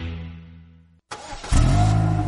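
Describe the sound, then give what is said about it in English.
A car engine starting: after a fading tone and a moment of silence, the starter cranks briefly, then the engine catches and settles into a loud, steady, low running rumble. “Well, this is great. The car is finally running right.”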